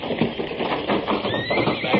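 A horse neighs near a fire, partly masked by a dense, rushing noise. A thin, high whinnying tone comes out more clearly in the second half.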